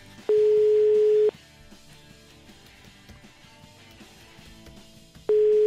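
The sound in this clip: Telephone ringing tones play on an unanswered call: two steady, mid-pitched, one-second tones about four seconds apart, with quiet background noise between them.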